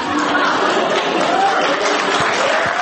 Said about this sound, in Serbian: Nagrađen je aplauzom svojih vršnjaka